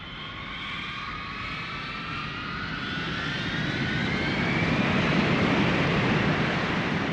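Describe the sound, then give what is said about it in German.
Mirage fighter jets taking off from a military air base: a broad, steady engine roar with high whining tones that grows louder through the second half and holds at full strength, with no voices. “Heute Morgen um 4.38 Uhr sind 19 Kampfflugzeuge vom Typ Mirage von unserer Militärbasis in Verbon-sur-Cône gestartet.”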